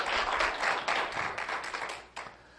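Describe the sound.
Applause from an audience welcoming a speaker to a lecture, a dense steady wash of many hands clapping that gradually thins and drops away near the end.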